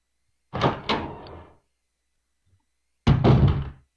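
A door opens in a video game with two heavy, muffled thunks, one at the start and another a couple of seconds later after a silent gap, with no voices.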